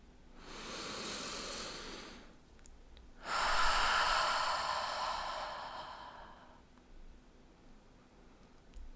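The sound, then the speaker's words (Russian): A slow, airy inhale through the nose, then a longer, louder exhale through the mouth during a guided breathing exercise, two sustained breath sounds separated by a brief pause. “Вдохните еще раз через нос, выдох через рот.”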